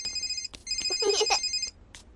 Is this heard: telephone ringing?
yes